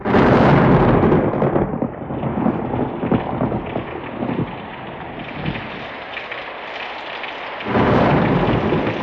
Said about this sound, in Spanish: La noche fue tormentosa. La lluvia ofrecía un curioso sonido al chocar violentamente con la gruesa barandilla del balcón de mi nuevo cuarto.